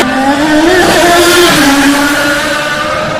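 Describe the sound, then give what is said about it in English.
Race cars speeding past on a track, tires churning up bits of asphalt and debris, give a loud, continuous engine roar with a steady droning pitch that wavers slightly as they whiz by. No voices are heard. “The G-forces on these auto racers is incredible. You're just feeling the force as they whiz by, but you can only imagine sitting inside of the cockpit of one of these vehicles.”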